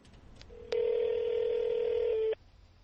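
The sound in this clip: An electronic telephone tone, as when a phone is dialed, holds as one steady, fairly loud beep for well over a second. A couple of faint short blips come before it.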